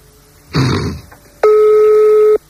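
A telephone line tone plays while a private number is dialed: one steady, even beep holding for about a second, preceded by a brief rough, noisy burst.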